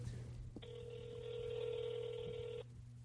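A ringback tone on a phone call to a man who is not picking up: a single steady electronic ring lasting about two seconds over a faint low hum.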